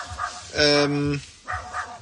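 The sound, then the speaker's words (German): A neighbour's dog barks briefly, giving one drawn-out, tonal yelping bark while people talk before and after it. “Oh, ist das der Nachbarshund, der ein bisschen bellt?”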